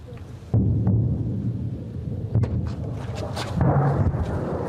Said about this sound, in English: The volleys of shells and rockets crash back and forth.